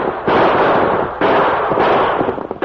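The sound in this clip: Sound-effect gunshots from a radio western shootout as outlaws hold up a stagecoach: three loud, booming blasts, each with a long rumbling, crackling tail, spaced roughly a second apart.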